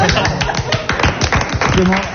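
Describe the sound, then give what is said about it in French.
Audience applause during a French quiz game: dense, steady clapping for about two seconds, with a voice speaking over it. “Un point, enfin, on peut applaudir.”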